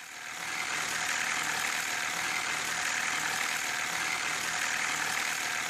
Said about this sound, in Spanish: indica que la cadena de distribución está rozando probablemente debido a los tensores.